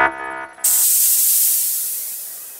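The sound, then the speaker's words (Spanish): Hatch doors opening on a spaceship, as a sound effect: a short tone gives way to a sudden loud burst of airy hiss that thins out and slowly fades over about two seconds. “Abriendo compuertas.”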